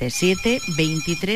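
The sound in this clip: Telephone ringtone for an incoming call: a short, tuneful electronic ring of just over a second, made of stepped steady tones that blend with a voice-like melodic sound.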